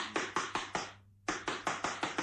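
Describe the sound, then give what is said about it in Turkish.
Knocking on the front door of a house at night: two bursts of sharp, rapid, evenly spaced raps, split by a short pause, with no voices. “Yoksa kapıyı vurayım bakayım.”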